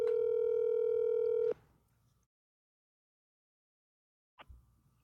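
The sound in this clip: A telephone voicemail tone sounds after an unanswered call: one steady, buzzy beep lasting about a second and a half, then silence, then a brief soft knock near the end.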